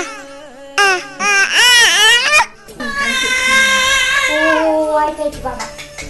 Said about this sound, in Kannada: ಆದರೆ ಅಳುವಾಗ ಕಂದನನ್ನ ಸಂತೈಸಲು ಬೇಕು ತಾಯಿ.